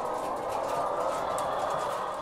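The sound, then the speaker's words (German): Eight thousand brown-feathered hens on several levels of a henhouse make a dense, steady murmur that holds evenly throughout, with no single call standing out. “8000 Hühner mit braunem Gefieder sitzen auf mehreren Ebenen und verbringen hier die Tage, wenn sie nicht draußen sind.”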